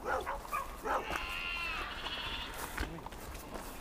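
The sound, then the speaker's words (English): Newborn lambs bleat in a few thin, wavering calls, moderately loud over a constant noisy background. “Look at the lambs. Two more lambs born.”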